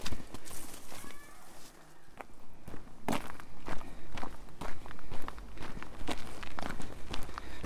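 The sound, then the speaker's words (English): Footsteps walking through woodland on the outskirts of Helford, many steady, evenly paced steps heard alone and fairly loud throughout. “An uneventful walk through woodland. It's taken me to the outskirts of Helford.”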